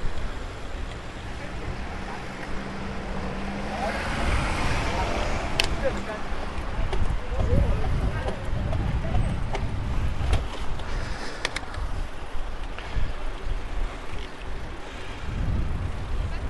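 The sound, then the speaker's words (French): Wind buffets the microphone of someone riding a bicycle, making a steady, loud, low roar with gusty swells that lasts the whole clip. “je suis désolé pour le bruit, pour le vent”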